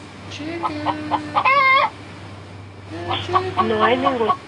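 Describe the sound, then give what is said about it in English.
An agitated chicken clucks and squawks in a string of short calls, with a couple of longer, warbling cries rising above the steady low background. “Chicken. No, chicken. He's not calming down.”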